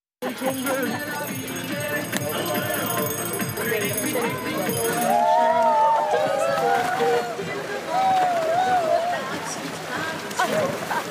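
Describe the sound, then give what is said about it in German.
Outdoor ambience of a seasonal first swim, with a continuous busy wash of many voices and lively commotion throughout, and brief higher calls standing out now and then. “Ein kurzes Atmo-Video vom Anbaden, würde ich es mal nennen, drin. Und wir hören einfach mal diese geile Soundkulisse”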